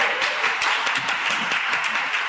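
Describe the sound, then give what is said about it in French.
Applause from an audience greeting the Notre Dame du Mont Carmel choir at a choral concert: a steady, dense wash of clapping that holds evenly for the whole moment with no voices on top. “Cette fois-ci, nous accueillons la chorale Notre Dame du Mont Carmel, qu'on acclame très fort.”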